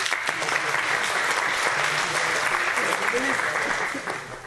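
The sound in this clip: A classroom of students applauds a classmate who has just answered a question: sustained, even clapping with a voice briefly audible partway through, tapering slightly at the close.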